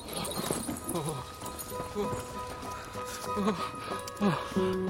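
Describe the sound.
Horse hooves clip-clop in an uneven patter of sharp knocks beneath speech, the steps continuing steadily across the whole stretch.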